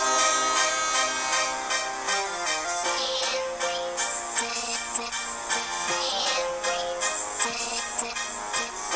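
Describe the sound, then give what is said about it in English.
A theme song written for a returning show guest by the show's music producer plays as dense, full band music with a steady driving beat and crisp percussive hits, loud and continuous throughout. “we went ahead and made him a theme song. Our music producer, excellent. Joey Joe Jr. Shabadoo, put this together this Mr. morning.”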